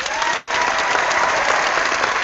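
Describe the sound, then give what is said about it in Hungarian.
An applause sound effect of dense, loud clapping by many hands. It breaks off for a split second near the start, then resumes at full, even strength. “És egy fantasztikus taps effekttel üdvözöltük akkor magunkat hárman, ez engem is meglepett, de jó volt.”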